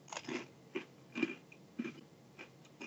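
Someone chews and bites a snack that tastes like Dunkaroos, making a steady series of faint, crisp crunches at an uneven rhythm.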